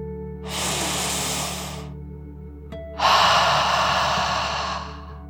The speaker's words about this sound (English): let's take one last deep dragon breath in and out.